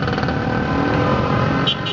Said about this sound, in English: That's the roar of traffic in the capital of Indonesia, where 24/7 cars and motorbikes and buses spew black clouds that foul up the air.